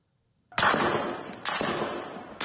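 Gunfire in video footage of children being shot: two sharp, loud cracks about a second apart, each followed by a long, noisy, ringing tail, with a third shot starting at the very end.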